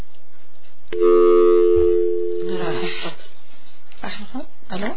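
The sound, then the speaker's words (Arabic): An incoming call sounds on a telephone line as one steady, buzzy electronic tone lasting about two seconds, followed by a voice speaking. “يمكن عنا اتصال، عنا اتصال.”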